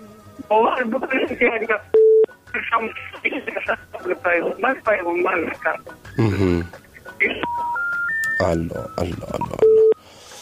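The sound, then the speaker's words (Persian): A telephone call on a call-in show drops and cuts off. Voices talk over the phone line, broken by short steady beeps and a run of three rising tones near the end. “خراب شد و قطع شد”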